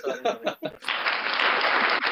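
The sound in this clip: An applause sound effect bursts in after a brief moment of talk. Dense clapping holds for just over a second before cutting off.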